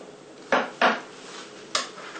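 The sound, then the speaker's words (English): A cake knife cutting out a square piece of cake, giving three short scraping knocks against the dish, two close together and a third after a pause. “And now with a cake knife, I'm just going to cut out a square piece.”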